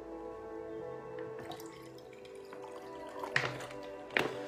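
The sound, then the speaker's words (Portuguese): Water poured into a small cup, faint: a soft trickle starts partway through, and a couple of brief clinks or splashes come near the end. “Deixa eu beber um pouquinho aqui também, que estou com sede. Deixa eu encher um pouquinho aqui também.”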